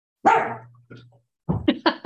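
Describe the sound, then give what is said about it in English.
A pet dog barks during an online meeting: a few sharp barks, the first drawn out over a low steady hum, then a quick cluster of short barks after a brief pause. “My dog would like to second that.”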